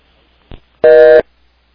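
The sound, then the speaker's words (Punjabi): A telephone busy tone sounds after a phone line disconnects during a call. A faint short blip comes first, then one steady, buzzy, mid-pitched tone burst lasting about a third of a second, followed by silence. “Sukhdeep Kang ਜੀ ਦੀ line I think ਜਿਹੜੀ ਉਹ disconnect ਹੋ ਗਈ ਹੈ।”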